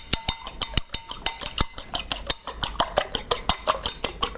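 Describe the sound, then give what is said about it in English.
A fork clicks rapidly against a bowl while whisking two eggs with a pinch of salt, giving many quick, sharp taps in a steady, busy rhythm with no talk. “Taking a fork, and I'm gonna whisk these 2 eggs up, putting a pinch of salt in there too.”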